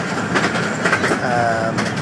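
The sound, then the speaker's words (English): A miniature railway train runs along the line to New Romney, rumbling steadily with a rhythmic clickety-clack of wheels over rail joints. A faint squealing tone rises briefly in the middle of the continuous, fairly loud run. “I couldn't resist coming out for a little run on the Romney, Hythe and Dymchurch Railway.”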